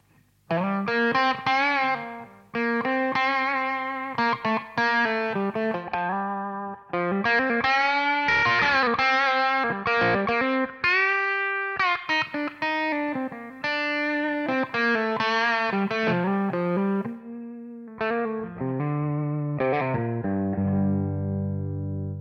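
A distorted electric guitar amp tone is captured with an SM57 mic position and a merged profile. Sustained overdriven chords and single notes play in a continuous run of phrases with brief gaps, and lower notes ring out at the end.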